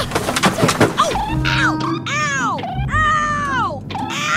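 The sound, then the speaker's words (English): An overhead luggage bin hatch on a plane is opened: a few knocks and clunks come first, then several long, squeaky creaks that rise and fall in pitch, with rustling in between. “I'm just going to squeeze by you. Okay, I'm going to open the hatch of this.”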